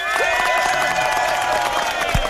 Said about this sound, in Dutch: Mag ik van jullie een daverend applaus voor onze voorzitter, onze lijsttrekker voor de Eerste Kamer, Selçuk Öztürk.